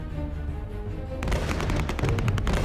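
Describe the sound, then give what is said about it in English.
Gunfire from police-issued pistols and high-caliber assault rifles erupts after a low steady hum, with many rapid, sharp shots crackling in quick irregular succession. “It was a mix of shots from multiple kinds of guns. Some were police-issued pistols and others were high-caliber assault rifles.”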